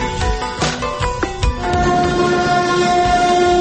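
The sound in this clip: A train rolls past houses beside a railway line in a poor Baku neighbourhood, a loud rumbling clatter with a steady horn-like tone sounding alongside.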